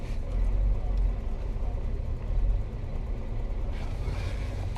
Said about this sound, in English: Oh my God, I'm driving here. I'm on the road. So if you hear a lot of noise, it's because I'm on the road.